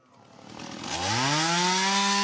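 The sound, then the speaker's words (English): A chainsaw used by citizen searchers clearing bushland revs up, its engine pitch climbing steadily before settling into a loud, sustained buzzing drone. “Armed with shovels, rakes and chainsaws, a team of citizen searchers are working their way through bushland”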